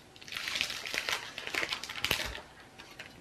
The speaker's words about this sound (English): Okay, meanwhile, I should cut some more cheese.